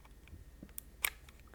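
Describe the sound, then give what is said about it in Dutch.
A faint, sharp click as a micro SD card is pressed out of its slot behind a small flap on a device, a single brief snap with a softer tick just before it and little else around it. “Het klepje haal je weg, de SD-kaart klik je eruit.”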